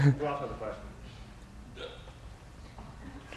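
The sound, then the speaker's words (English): A brief hiccup bursts out of someone among a group, a single short, sharp catch near the start, fairly faint, then fading into low, steady background noise. “Someone had a hiccup.”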